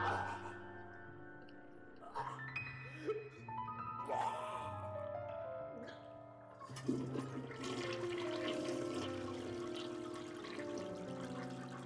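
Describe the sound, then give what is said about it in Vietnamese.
Toilet flushing after someone has vomited: a sustained rushing of water that builds louder in the second half, blended with steady tonal notes underneath. “sau đó là tiếng nôn ọe mà xả nước bồn cầu”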